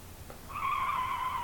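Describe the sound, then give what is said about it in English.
Car tires squealing: one sustained, high-pitched screech that begins about a third of the way in and holds steady to the end, fairly faint over a low rumble. “See, the squealing of the tires made me think, like...”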